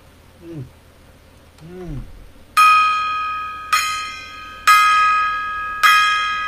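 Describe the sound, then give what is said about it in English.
Four loud metallic strikes of a gong being banged, each ringing out with bright sustained overtones and decaying before the next hit, in an uneven rhythm. “All right, banging the gong.”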